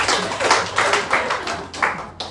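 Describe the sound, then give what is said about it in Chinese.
Audience clapping at a steady rhythm, with sharp, loud claps falling in a regular beat of about seven strokes, each quickly fading before the next. “鼓掌啊！”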